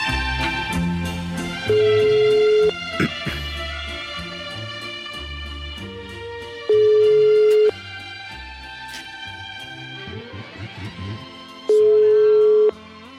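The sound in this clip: Telephone ringing as three long, steady mid-pitched tones about five seconds apart, each cutting through lively instrumental music that plays throughout.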